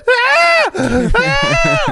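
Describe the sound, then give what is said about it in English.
A person imitates a cow's moo with two long, drawn-out voiced lowing calls separated by a brief break. The calls are loud and steady and groan-like in tone. “The cow, the cow goes,”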